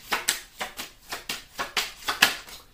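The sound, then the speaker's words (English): Tarot cards fall during a reading, making a quick series of crisp papery slaps and flicks in an even rhythm, each one short and bright, with no voice over them. “And then my cards just fell down.”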